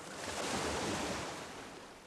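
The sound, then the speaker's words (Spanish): Sea waves wash ashore at night in Veracruz, a soft, steady rush of surf that swells and then slowly fades, faint and even. “Noche tibia y callada de Veracruz. Cuento de pescadores que arrulla el”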